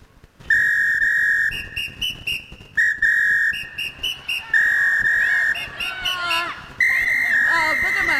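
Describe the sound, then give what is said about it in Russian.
A man whistles a tune in clear, bright tones, a melody of held notes and short clipped ones at shifting pitches, with quick trills toward the end. “А мужчина продолжает насвистывать.”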